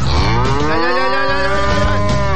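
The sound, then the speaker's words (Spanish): A cow moos in one long, loud, sustained call that holds a steady, richly harmonic tone from start to finish, with no other sounds or voices. “¿Quién dejó de entrar a esta vaca aquí?”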